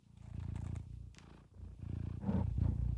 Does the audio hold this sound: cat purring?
yes

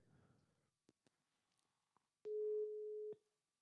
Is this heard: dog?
no

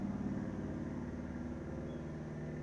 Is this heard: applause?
no

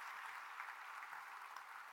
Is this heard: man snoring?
no

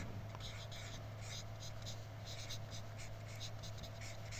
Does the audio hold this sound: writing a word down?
yes

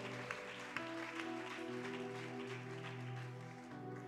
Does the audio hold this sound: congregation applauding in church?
yes

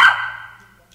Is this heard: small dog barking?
yes

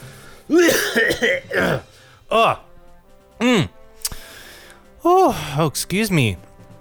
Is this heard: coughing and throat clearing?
yes

